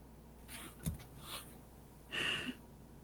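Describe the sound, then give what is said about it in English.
A voice imitates a wounded character's heavy, labored breathing during a tabletop role-play game. A few faint, rasping breaths come in bursts, and the longest one falls near the end. “And he breathes in heavy again.”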